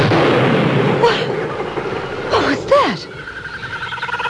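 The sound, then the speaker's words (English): A sharp gunshot fired inside a tent cracks through a noisy background, with brief bursts and voices around it. “That was a shot. Yes, Aunt Rose, it was a shot. And it came from Dennis's tent.”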